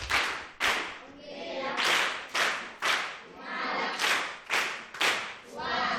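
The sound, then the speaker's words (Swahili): A group claps at the end of a classroom lesson, with loud, sharp claps in a steady rhythmic pattern that repeats many times. “Ni makofi basi na mimi.”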